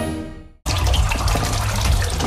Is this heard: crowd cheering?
no

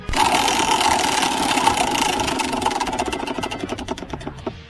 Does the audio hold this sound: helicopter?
no

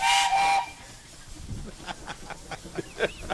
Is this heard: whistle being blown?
yes

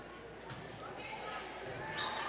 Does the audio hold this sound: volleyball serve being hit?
yes

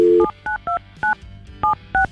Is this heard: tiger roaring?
no

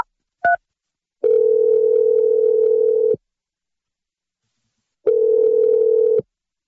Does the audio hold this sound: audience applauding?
no

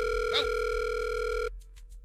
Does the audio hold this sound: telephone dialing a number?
yes

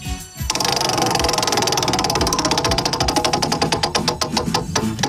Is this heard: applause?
no

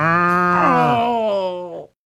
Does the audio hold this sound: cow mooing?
yes

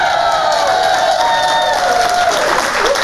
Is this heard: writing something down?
no

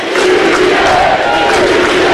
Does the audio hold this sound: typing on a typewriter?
no

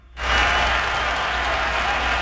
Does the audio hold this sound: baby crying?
no

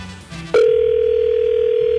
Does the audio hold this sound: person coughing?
no

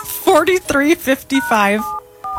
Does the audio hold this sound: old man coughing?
no

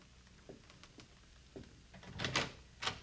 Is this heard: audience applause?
no

